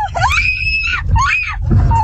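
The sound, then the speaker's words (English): A woman screams from a car's passenger seat while another driver swerves and blocks the road. There are two long, shrill, sustained screams over a low rumble from inside the car. “The victim's wife screaming from the passenger seat.”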